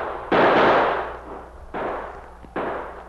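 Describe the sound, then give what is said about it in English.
Gunshots in a gunfight between outlaws and a sergeant on a snowy, wooded trail: three sharp, heavy blasts with long fading tails, the first the loudest, spaced unevenly with no voices. “The outlaws opened fire.”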